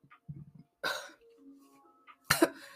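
Throat clearing and coughing from someone with something caught in their throat: a low rumbling clear followed by a couple of sharp, loud coughs, separated by brief quiet gaps.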